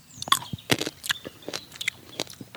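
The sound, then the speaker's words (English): Crunchy biting and wet chewing of a Sauvignac hybrid wine grape, a cross of Sauvignon Blanc, Riesling and wild vines; many short, crisp crunches follow in an uneven rhythm, fairly quiet, with no talk. “So this one is called Sauvignac, and it's a hybrid of Sauvignon Blanc, Riesling, and wild vines. Okay, we're tasting the grape here. This is the hybrid.”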